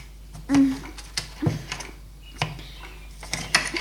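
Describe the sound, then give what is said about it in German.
A knife cutting vegetables for a pizza knocks and taps against a board in a few irregular, fairly faint strokes, with one duller thud near the start. No voices. “Als nächstes müssen sie das Gemüse in Scheiben schneiden.”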